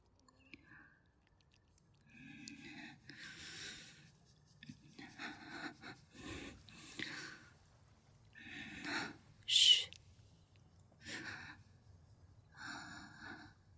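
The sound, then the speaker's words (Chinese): Rapid breathing, quick soft breaths coming roughly once per second in an irregular pattern, mostly faint and airy, with one sharper, louder breath partway through. “你现在的呼吸很急，呼吸频率是一秒。”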